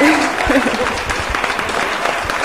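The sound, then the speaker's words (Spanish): Applause welcomes a guest on a radio program about pets: dense, steady clapping runs throughout, with a voice heard briefly at the start. “Unos aplausos para”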